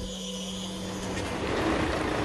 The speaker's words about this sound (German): Betonwerk Berlin-Tempelhof. Kieslaster aus Altenau laden das begehrte Gestein ab.